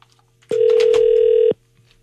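A telephone ring sounds as a single steady electronic tone. It lasts about one second, loud and clean, with quiet before and after it.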